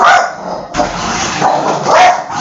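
A dog barks loudly a few times in quick succession, with sharp, forceful barks and no talking around them.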